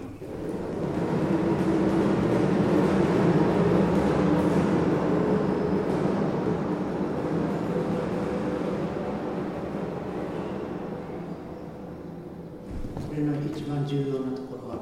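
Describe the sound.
Continuous rolling rumble of a round stone spinning like a top in a large metal bowl, about one and a half metres wide, hung from the ceiling. The rumble is loud and steady with resonant metallic ringing and eases slightly before a brief dip near the end.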